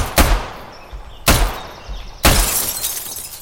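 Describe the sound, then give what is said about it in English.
Gunshots shatter a window in a video game: three sharp, loud cracks, each followed by a ringing spill of breaking glass, with the last burst's glassy tail lasting longest. “If I shoot this window,”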